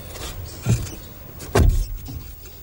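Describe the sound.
A car drives off under a low, rumbling engine. Two heavy low thuds stand out, and the second is longer and louder than the first.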